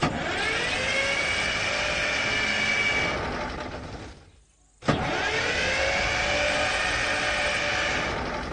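The engine of a large vehicle cranks but fails to start. There is a long, loud, whirring grind, a brief break, then a second equally long cranking attempt that also does not catch.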